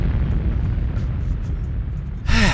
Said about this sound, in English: Explosions.